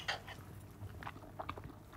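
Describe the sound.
Faint, soft chewing as someone tastes a stuffed oyster mushroom dish: a few moist clicks and crunches at an uneven pace, quiet and with no talking.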